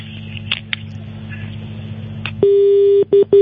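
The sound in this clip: Telephone disconnect tone on a call line: low humming line noise with a few faint clicks gives way to a loud, steady electronic tone, which then breaks into two shorter beeps.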